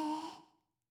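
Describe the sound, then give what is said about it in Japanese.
A slow, deep breath out, part of paced breathing: a single breathy, slightly voiced exhale that fades to silence within about half a second. “はい、吸って、吐いて、吸って、”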